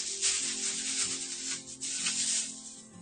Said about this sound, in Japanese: きゅうりを切っていきます。